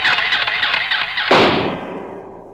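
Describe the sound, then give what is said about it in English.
A toy atomic blaster fires in a radio-drama sound effect: a shrill, warbling electronic whine, then a sudden loud burst midway that fades away into hiss. “There's an atomic blaster, Junior Space Cadet size. Why not? Let's try it.”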